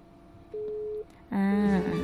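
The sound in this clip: A steady telephone line tone sounds as a caller's line drops during a radio call-in, one flat beep of about half a second, followed by a voice speaking.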